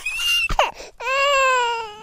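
A baby girl fusses and whines discontentedly: a few wavering, strained cries, then one long, steady, high wail, loud and alone.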